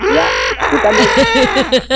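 A person imitates a chicken begging for food: a drawn-out nasal call, then a quick run of repeated clucking bursts, each rising and falling in pitch, loud and in a brisk, uneven rhythm.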